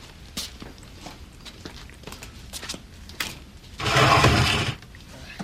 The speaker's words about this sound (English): pads down the stairs